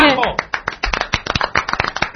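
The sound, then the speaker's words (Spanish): Clapping from a small group follows a brief voice at the start. It is a quick, uneven patter of many sharp, separate claps that stays fairly loud throughout. “Un aplauso para ella, por favor. Soltad la DS y aplaudidme.”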